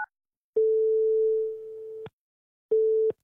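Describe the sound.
A telephone call signal sounds as a steady, mid-pitched electronic tone. One long beep of about a second and a half is followed after a short gap by a briefer one, each starting and stopping with a faint click.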